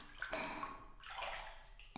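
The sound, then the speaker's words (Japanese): Water sloshing and splashing in a hot bath as someone rises out of it. A few faint bursts of movement break through a soft, continuous watery wash. “そろそろお湯から上がりましょうか。”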